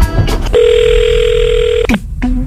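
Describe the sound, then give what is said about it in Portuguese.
A telephone call being placed: a steady mid-pitched ringing or dial tone held for just over a second, cut off by a click, then a second tone beginning after a short gap. “Vou ligar pra ele, então.”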